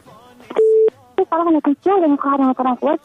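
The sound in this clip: A short, steady telephone tone beeps as a caller is connected to a radio call-in show, and a voice starts talking over the line right after.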